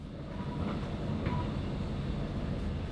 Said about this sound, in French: je suis sur le quai de la gare et je vais prendre mon train